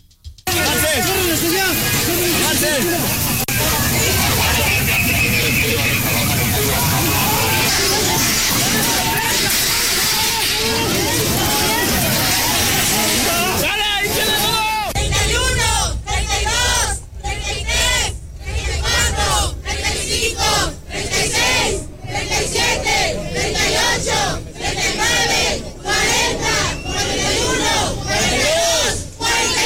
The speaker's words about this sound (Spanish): Los manifestantes expresaron su inconformidad por la situación de violencia y desapariciones en el país mediante diversas consignas. Vamos a escuchar.